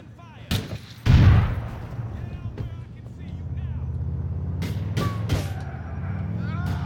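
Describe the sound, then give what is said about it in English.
A grenade explosion and gunfire in the video game GTA IV: a heavy low blast early on, then a few sharp cracks later, over a rumbling vehicle engine, with people talking. “You know what grenades are great for?”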